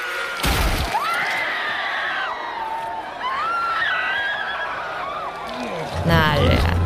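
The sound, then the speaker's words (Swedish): Wet crunching and cracking from a TV scene in which The Mountain presses in a man's eyeballs and crushes his skull with his bare hands. Loud bursts come at the start and end, with high, wavering anguished screams in between. “När han, liksom, han trycker väl först in liksom ögongloberna mm. och sen krossar han ju hela huvudet med sina bara händer.”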